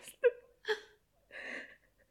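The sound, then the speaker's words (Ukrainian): A grandmother crying in three short, broken sobs, each a wavering, whimpering burst, the last drawn out longer, separated by brief quiet gasps. “Бабуся, а чаго ж ты плачеш?”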